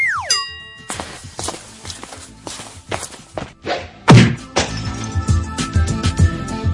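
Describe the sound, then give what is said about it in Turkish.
Slipper smacks land as a run of sharp, dry thuds and slaps at an uneven pace, with a brief falling tone at the very start. The hits grow busier and louder toward the end, and no one speaks. “Bildiniz değil mi? Bu nesnenin adı terlik.”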